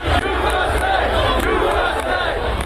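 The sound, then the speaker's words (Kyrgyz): Thousands of Trump supporters gathered outside the US Capitol during clashes with police chant pro-Trump slogans as a dense, loud crowd roar of many shouting voices, continuous and unbroken. “Ал эми имараттын сыртында миңдеген киши чогулуп турду. Алардын айрымдары Трампты колдогон урандарды чакырып, полиция менен да кагылышты.”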